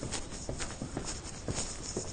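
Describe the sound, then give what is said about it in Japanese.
Soft footsteps go down a flight of stairs during a house move. They make a series of quiet, light thuds at a fairly even walking pace. “ちょっと待ってくださいね皆さん。階段を降りてみます”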